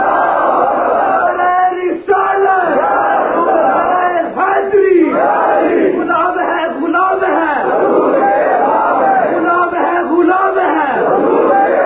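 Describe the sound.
A large crowd at a religious gathering chants 'Allahu Akbar' in answer to repeated Nara-e-Takbeer calls. Many voices rise and fall together in loud, repeated slogan waves, with continuous crowd noise throughout.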